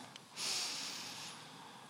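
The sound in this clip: One person draws in a single deep breath during a guided breathing exercise, a faint, airy hiss that swells, holds briefly, then tapers off.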